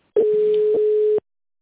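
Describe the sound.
A steady telephone line tone sounds while a call is forwarded to a call center: one continuous mid-pitched tone of about a second that cuts off abruptly, followed by silence.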